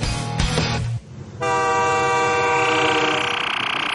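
A train horn blares over the rumble of a moving train. A brief rattling, uneven passage gives way to a loud, steady, multi-toned horn blast that holds unbroken to the end.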